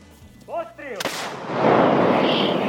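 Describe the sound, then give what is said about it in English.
A single sharp, heavy boom of an M777 howitzer firing, artillery the United States gave to Ukraine for use against Russian forces, followed by a long rolling rumble; a brief voice is heard just before the blast. “These guns are called M777s. They were given to Ukraine by the United States. Soldiers can use them to strike Russian forces up to 20 miles away.”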